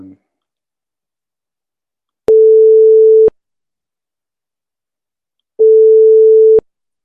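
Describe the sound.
Telephone ringback tone while a call is placed: two steady mid-pitched electronic tones, each about one second long, separated by a few seconds of silence, with faint clicks where each tone starts and stops.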